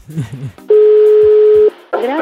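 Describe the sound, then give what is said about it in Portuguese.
A telephone dial tone while calling someone: a single loud, steady tone of about one second, with talking just before it and voices resuming right after. “Agora vamos ligar para ela.”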